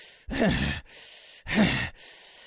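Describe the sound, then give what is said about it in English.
Forced breathing pushed in and out with equal force, shown as an example of unpleasant breathing during tantric sex: two loud, rough breaths with a slightly voiced, groaning edge, separated by a short pause. “often it's because you're forcing air in and out kind of with equal velocity, like”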